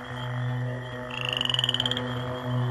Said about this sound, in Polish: I ten zupełnie opętańczy koncert żab.